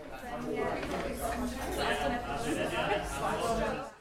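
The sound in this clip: Background chatter of many overlapping voices at an informal networking group for small business owners, a steady, dense babble with no single speaker standing out, holding at an even level throughout.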